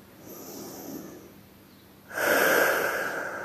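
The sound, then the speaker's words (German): A deep breath taken during a guided breathing exercise. A soft, airy inhalation comes first, then a markedly louder, sustained breathy exhalation fills the second half, with no speech. “2, 3 ganz tiefe Atemzüge und atme beim Ausatmen etwas lauter aus.”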